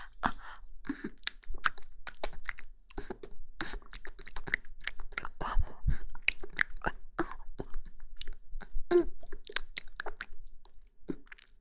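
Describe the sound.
Food is chewed with crunchy, wet mouth sounds, many irregular clicks and smacks running throughout at a fairly soft level.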